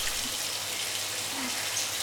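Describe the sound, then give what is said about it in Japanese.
Running water flows steadily while hair is washed with shampoo, an even, continuous hiss at moderate level with no distinct drips or pauses. “それじゃあ髪洗うわよ。シャンプーって、これでいいのよね。”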